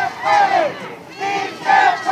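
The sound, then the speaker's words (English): Several hundred people gathered in a street in an industrial part of town on a rainy day, outside a detention center, chant loudly together. Their voices rise in repeated unison swells with short dips between them. “Despite the weather, several hundred people crowd into a street in an industrial part of town.”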